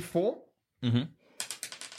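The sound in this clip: A small die rolled during a tabletop role-playing game clatters in a quick run of sharp clicks after people talk, each tap a little fainter as it settles.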